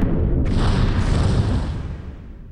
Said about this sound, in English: What just happened? Oh my god. It just exploded. But that can't be. It shouldn't have. What do you mean, Nikolai? The ship shouldn't have exploded,